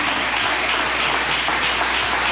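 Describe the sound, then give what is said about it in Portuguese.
A church audience claps during a worship service, giving a steady, dense wash of hand claps that holds at an even level for the whole stretch, with no talk over it. “Vamos receber o pastor Adriano aplaudindo a Jesus. Palmas para Jesus.”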